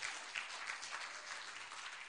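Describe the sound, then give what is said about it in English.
Audience applause for a worship team at a church service: a steady, continuous patter of many hands clapping, fairly faint and with no voices. “Let's give that worship team a round of applause now.”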